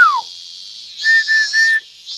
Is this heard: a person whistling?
yes